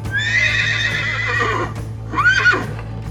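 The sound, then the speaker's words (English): A horse neighs to stand in for a centaur rearing up on its hind legs and bellowing: two loud, shrill whinnies over a low steady hum. “It was one of the centaurs rearing up on his hind legs and bellowing freely.”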